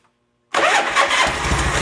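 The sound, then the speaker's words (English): A motorcycle engine fires up after its fuel line is reconnected and the fuel filter refilled; after a brief silence it catches abruptly and settles into a loud, steady, slightly rough idle. “I'm going to go ahead and hook the fuel line up and put more fuel in it. We know we got fuel. The fuel filter, I can see, is all filled up and stuff. So let's see what happens now. Turn the bike on.”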